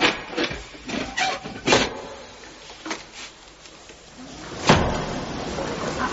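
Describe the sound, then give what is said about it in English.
Heavy bolts drawn back and a trapdoor over a cave shaft pulled open: a series of scraping, clunking knocks, then one louder, broad bang followed by a lingering rumble, with no voices. “Now, just draw back the bolts and open it, and you'll be able to see.”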